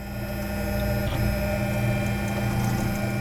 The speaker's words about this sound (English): That's the sound of Gillette's custom-built 3D printer. He designed it to make prototypes for their clients faster and cheaper than any of the other printers down here.